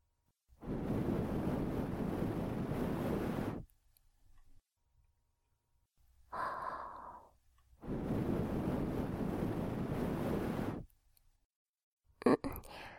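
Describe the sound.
Soft breath blown into the ear: two long, steady, airy blows of about three seconds each, with a brief whispered voice between them and a faint rustle at the end.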